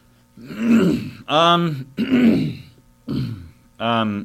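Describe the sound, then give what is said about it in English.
A person clears their throat five times in a row with rough, groaning, voiced rasps. Each burst is fairly loud and separated by brief pauses. “excuse me, I just got something in my throat”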